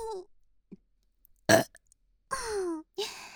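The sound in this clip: Deliberate burps forced up from the stomach: a few loud, raspy eructations, starting with a short sharp one and followed by longer drawn-out croaking burps, with quiet gaps between and no talk.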